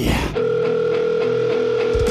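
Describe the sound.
Telephone line tone while a number is dialed: a steady, unbroken electronic tone holds one pitch for about two seconds after a brief noisy start, with no voices.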